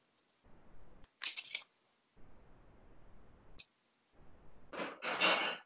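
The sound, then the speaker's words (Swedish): Playing cards are shuffled by hand in a few short, crisp riffling bursts separated by quiet pauses. The sound is faint overall, and the final burst is the longest. “Nu blandar jag lite här eh, korten.”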